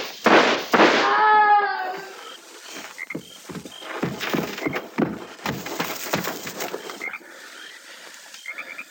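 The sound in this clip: Gunfire in a frontier shootout: many sharp, cracking shots in an irregular volley, with a voice heard briefly near the start.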